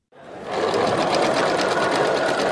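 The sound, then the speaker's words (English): A sewing machine stitches headscarves at a community center in Christchurch, New Zealand, starting after a brief silence and then running in a steady, fast, rhythmic whir to the end. “Volunteers come together Sunday, sewing headscarves at a community center in Christchurch, New Zealand.”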